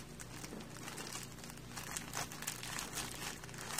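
Wax-like paper crinkles faintly as fabric is pinned onto it, giving soft, irregular rustling and small crackles that continue throughout without voices.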